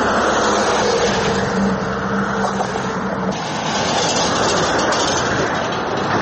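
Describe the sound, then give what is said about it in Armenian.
A heavy vehicle crosses a worn 640-metre road bridge in Abovyan, Kotayk, making a loud, continuous low rumble with broad road noise that holds steady and dips only briefly midway. “Եթե կանգնեք Կոտայքի Աբովյան նոր հաճընքաղաքներն իրար կապող 640 մետրանոց կամուրջի վրա ու այդ պահին որևէ ծանր մեքենա անցնի, ցնցումներ կզգաք ու նման ցայներ կլսեք։”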